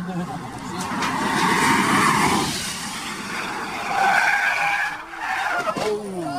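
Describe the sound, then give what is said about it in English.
Loud tire screeching and engine roar from a car skidding out of control in a crash during filming of a motoring programme, a sustained noisy rush that surges again midway. “a horrible, horrific looking crash. You can hear it as well. And they weren't that close to it. And the car was making that kind of noise.”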